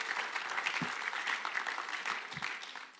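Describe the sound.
An audience applauds to welcome a guest at a talk about golf putting. The clapping is dense and steady throughout and tapers off slightly at the end.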